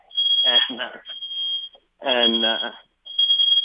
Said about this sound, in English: I'll give you a second there to get your smoke detector working there.